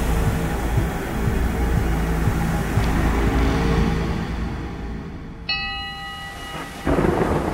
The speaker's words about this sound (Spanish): Soy el tronar de las tormentas.